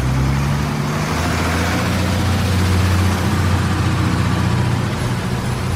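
A bus engine runs as the bus departs, a steady low rumble with a droning hum that holds throughout, with no voices.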